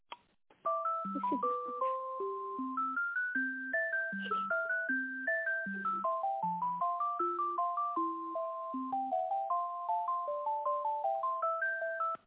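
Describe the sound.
A synthetic electronic phone tune plays while a call is being transferred, a bright melodic line of clean repeating notes over a lower alternating figure. It stays steady and fairly quiet, with no talking.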